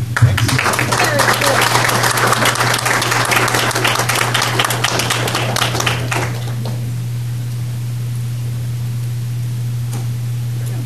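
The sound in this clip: Audience applause for three presenters at a STEM event: dense, loud clapping for about six seconds that then stops, leaving a steady low hum.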